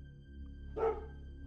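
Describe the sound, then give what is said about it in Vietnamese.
A single short dog bark, faint and quick, rising briefly over a low steady hum. “Con chó quậy đuôi sủa lên gâu gâu.”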